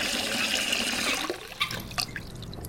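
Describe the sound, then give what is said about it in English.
Hot water filling a clean white bathroom sink, a steady rushing stream from the tap that drops away after about a second into a few faint trickles and light drips. “A clean white bathroom sink is filled with hot water.”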